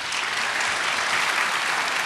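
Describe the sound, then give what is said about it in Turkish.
Steady crowd applause sending off a guest, a dense, continuous patter of many hands clapping at an even level from start to finish, with no voices over it. “Alkışlarla uğurluyoruz.”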